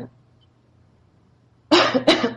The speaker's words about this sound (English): I apologize for that cough there for a second.